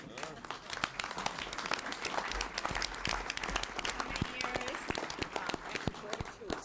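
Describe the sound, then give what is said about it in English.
Applause during a legislative session for a state senator marking his wedding anniversary: many hands clapping in a quiet, crackling spread, with voices speaking over it. “thank you for the applause for Senator Stumpf”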